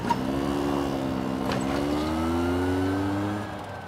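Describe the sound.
A car driving off, its engine humming steadily and climbing gently in pitch as it pulls away, then dropping off in level near the end.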